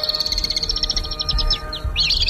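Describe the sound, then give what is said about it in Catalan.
Alpine swift song from birds living in a stadium, a rapid run of high, shrill trilling chirps repeating with a short break, clear and alone without voices. “Que té aquest cant tan bonic, és el vencejo real.”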